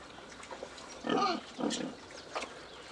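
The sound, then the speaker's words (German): Fattening pigs kept outdoors on a small Spreewald farm grunt, with two louder, low, snorting grunts standing out among fainter grunting. “Die 10 Schweine mästet der Spreewaldbauer für den Eigenbedarf und auf Bestellung.”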